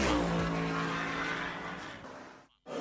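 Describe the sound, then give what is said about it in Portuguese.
A car engine roars loudly at a drift festival in the city of Beira, a continuous revving drone that gradually fades, cuts out briefly near the end, then returns. “Bochecha Spin Fest, a maior festa do drift na cidade da Beira.”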